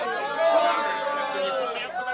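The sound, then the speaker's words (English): In an audio drama, a crowd of onlookers in a street murmurs and chatters in a steady, dense babble of overlapping voices. “Stand back. Longinus, keep the crowd back. Use your sword if you have to. Back. Don't come any closer.”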